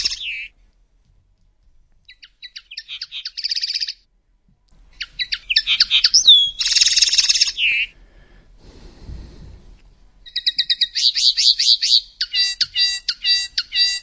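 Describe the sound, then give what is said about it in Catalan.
A male linnet sings bright, high-pitched twittering phrases in quick bursts, with short pauses between runs of rapid chirps and trills. “Segons diu així, és el cant del paisarell mascle.”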